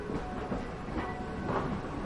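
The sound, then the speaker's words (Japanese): A tram rumbles steadily on its rails as it slows toward the Burgring stop beside the imperial palace in light snowfall. Rhythmic wheel clacks sound a few times over a low, even roll with faint hiss. “小雪の舞う王宮を右に従え、やがてブルクリンク駅に向けゆっくりと徐行を始めた。”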